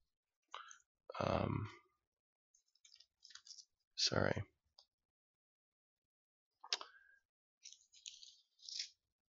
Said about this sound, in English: just going to Google this. It'll be faster.